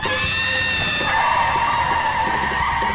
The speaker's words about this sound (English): She skids to a halt, the dog on her lap.